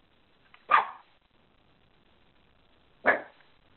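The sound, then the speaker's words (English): A dog barks twice in the background of a conference call, two sharp, loud barks a couple of seconds apart with quiet line noise between them and no talking. “And that's my dog being mindful of the noise in the background. So if there's a little barking there.”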